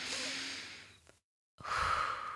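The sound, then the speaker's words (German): A deep breath drawn in, a soft airy rush that slowly fades. After a short silence, another audible breath follows. “Und zum Abschluss noch einmal tief einatmen”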